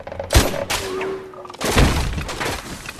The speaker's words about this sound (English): Major, demonstrate the weapon on single shot. He's actually impressed. Now, this is the better shot. That's a very difficult shot.